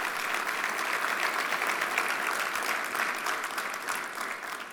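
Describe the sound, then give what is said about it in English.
Audience applause for a college basketball award winner at a Big 12 awards event, steady dense clapping from a large crowd that holds for several seconds without a break and eases off slightly at the end. “So congratulations to him. Let's give him one more hand.”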